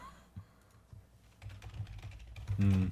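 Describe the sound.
Computer keyboard typing while resetting a lost password, sparse faint key taps that grow busier toward the end.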